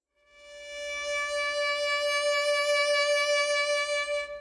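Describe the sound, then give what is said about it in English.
A sustained D note swells in gently and holds steady, then takes on a slow, wide vibrato that becomes a clearly pulsing waver before the tone cuts off. “So I'm going to take a D note, and I'm going to do some different vibrato”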